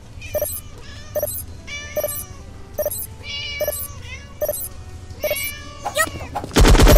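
Short cat meows from a video game repeat at a steady, regular pace over a low background rumble. A loud, noisy burst cuts in at the end.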